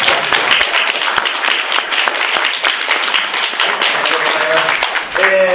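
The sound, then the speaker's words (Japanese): A church audience applauds to give thanks to God at the close of a gathering. Brisk clapping runs steadily throughout, and a voice briefly rises above it near the end. “神様に感謝を捧げていきたいと思います。拍手で神様に感謝を”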